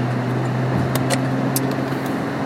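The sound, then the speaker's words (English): Steady, low engine hum of a car driving onto a freeway, an even drone throughout with a few faint, brief high ticks scattered over it. “Finally getting on the freeway, just around the corner.”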